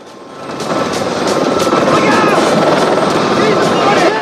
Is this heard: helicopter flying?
yes

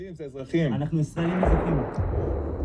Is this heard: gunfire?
yes

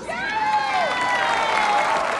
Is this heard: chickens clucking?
no

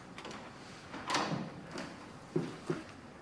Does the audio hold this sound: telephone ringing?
no

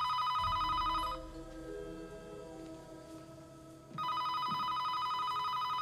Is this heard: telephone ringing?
yes

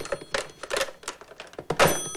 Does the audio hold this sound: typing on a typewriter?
yes

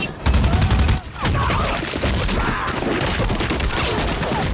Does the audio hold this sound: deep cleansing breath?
no

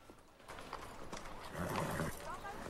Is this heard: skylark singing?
no

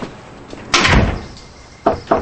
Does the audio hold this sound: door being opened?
yes

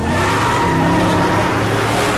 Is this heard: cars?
yes

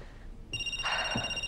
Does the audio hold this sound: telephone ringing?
yes

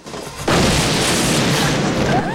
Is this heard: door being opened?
no

